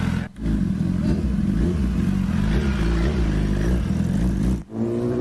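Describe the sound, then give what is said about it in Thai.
A big motorcycle engine revs with a loud, steady, throaty roar throughout, briefly dipping once near the start and again near the end. “มีบริการขี่บิ๊กไบค์เท่ๆแบบนี้ออกไปส่งบาร์บีคิวให้ลูกค้าถึงบ้านนะครับ”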